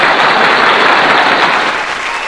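Loud, dense crowd applause, many hands clapping in a continuous, even roar like a packed stadium, holding steady for a couple of seconds with no talk over it.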